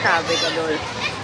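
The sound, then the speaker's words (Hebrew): Children play and talk in a busy exhibition hall at an expo, their overlapping high-pitched voices forming a steady, lively babble. “אז אנחנו פה בתערוכת World Story באקספו, בגלל זה כל הסאונד הזה.”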